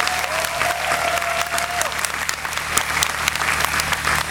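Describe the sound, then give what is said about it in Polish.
Audience applause at a diocesan gathering at an open-air skansen museum in Poland: loud, steady clapping from many hands that continues without pause. “Serdecznie, gromkimi brawami pozdrawiamy wszystkich radiosłuchaczy!”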